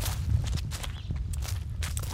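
Footsteps during a walk through the village of Lüblow make a steady, rhythmic run of soft thuds over a low rumble, with no voices.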